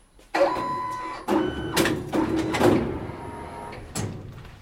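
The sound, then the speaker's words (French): A t-shirt printing machine prints a shirt with several separate bursts of mechanical whirring and clunking, each starting sharply and then tapering off, with short gaps between them and no talk. “Donc là, on va vous imprimer un t-shirt.”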